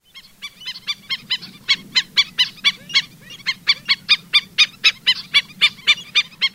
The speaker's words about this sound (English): Now, the black-necked stilt might sound like an obscure kind of tool maybe for doing yard work. It's actually the name of a bird found typically in Gulf states that's been known to visit us here in Wisconsin. It sounds like this.